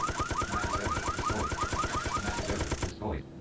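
Machine-gun fire in a video game, a fast, steady stream of many evenly spaced bursts with a bright, metallic edge that runs for about three seconds and then stops abruptly.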